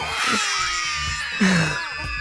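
Babies crying at the home of a newborn's family: tonal, wavering wails rise and fall over a couple of seconds, with a louder cry bursting out near the end.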